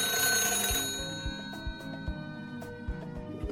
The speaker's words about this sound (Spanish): hasta que recibe la llamada